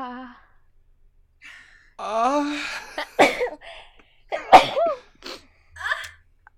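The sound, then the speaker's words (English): A person sneezes: a wavering, gasping intake of breath builds into a sharp, explosive burst, with short breathy vocal sounds around it. “I'm going to sneeze.”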